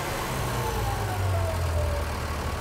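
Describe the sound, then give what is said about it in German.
An engine on a test run is throttled back to idle after reaching its rated output, a steady, loud low drone with a faint tone stepping down in pitch as the revs settle. “Kannst Gas wegnehmen. Lang, ne? Gehen wir runter auf Standgas.”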